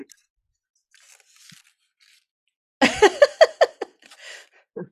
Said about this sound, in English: I'm going to rip a palm branch off so you can see what it looks like.